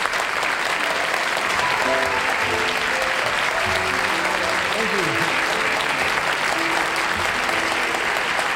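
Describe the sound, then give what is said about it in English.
Loud, sustained applause from an audience cheering for Tony Bennett, a dense steady wash of clapping that holds at an even level throughout. “Now, ladies and gentlemen, let's have a tremendous hand for Tony Bennett. Let's hear it out there for Anthony.”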